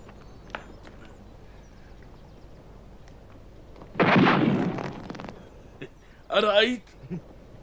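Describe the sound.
A single gunshot fired in the mountains during a lesson in aiming, a loud burst whose rumble lingers for about a second amid talk, followed shortly by a raised voice.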